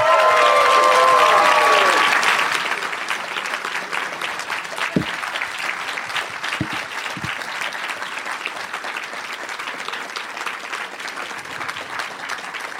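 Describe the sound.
Loud audience applause welcoming three guests at a show in Chicago, opening with whoops and cheers that fade after about two seconds, leaving steady, dense clapping.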